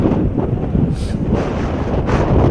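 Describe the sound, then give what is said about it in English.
Heavy wind gusts at an outdoor football practice buffet the microphone in a constant low roar, with brief hissy surges. “the wind is really, I mean, it was bad with the starter practice. It's been consistent. It's some pretty heavy gusts thus far.”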